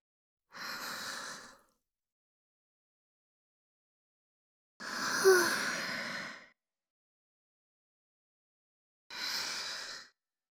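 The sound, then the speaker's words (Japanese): A person taking deep breaths: three slow, airy breaths separated by long silent pauses. The middle breath is the longest and fullest. “ちょっと待って。深呼吸するね。”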